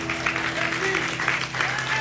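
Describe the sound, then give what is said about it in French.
Audience applause at an improvisation show: dense, steady clapping throughout, with a voice speaking over it. “On peut applaudir Sarkis. On peut l'applaudir Sarkis sur la mission, merci beaucoup.”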